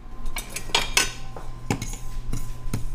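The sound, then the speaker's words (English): Sharp metallic clinks and rattles of a pan and utensil as a tablespoon of sesame seeds dry-toasts without oil over medium-low heat, several bright bursts spaced irregularly over a faint background hum. “Okay, so we are going to toast just a tablespoon of sesame seeds. You don't really need oil. Just about medium low.”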